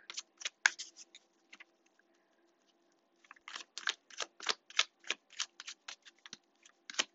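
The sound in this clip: Tarot cards being shuffled make two runs of many crisp, rapid snaps split by a quiet pause of about a second, faint overall, with a soft steady hum beneath.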